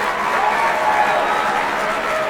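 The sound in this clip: A round of applause for a guest joining a show, heard as a steady, even wash of clapping that stays at one level for about two seconds without clear breaks.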